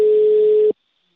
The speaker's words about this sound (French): Là, on va plutôt appeler notre collègue Jean-François Carreau.